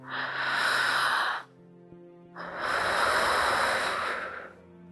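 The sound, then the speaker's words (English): A deep, cleansing breath, heard as two long breathy rushes of air separated by a short quiet pause. The breathing is fairly loud and there is no talk. “Now, be present in this moment and take a deep, cleansing breath.”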